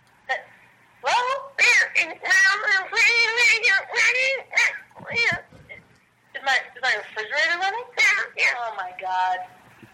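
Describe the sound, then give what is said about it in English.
A voice imitating a cat produces a rapid run of many wavering meow-like calls, mid-pitched and loud, in two long bursts separated by a brief pause. “He loves, this cat loves making this call.”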